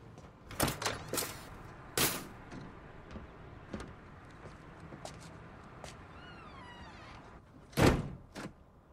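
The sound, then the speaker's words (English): An RV door opening, with a few quiet clicks and thunks of handle and latch early on, then a louder rattling clunk near the end, all faint against a near-silent background. “Ming opens the RV's door and steps outside, carrying his briefcase.”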